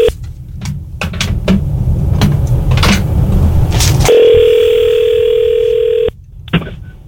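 A steady telephone dial tone sounds as a call is placed. It follows several sharp clicks and handling noises, holds for about two seconds, then cuts off abruptly with one more click.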